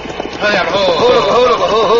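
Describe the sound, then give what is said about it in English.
Horses' hooves clip-clop at a steady trot, rhythmic and fairly loud throughout, with voices talking over them. “There's plenty of room for our horses and ourselves.”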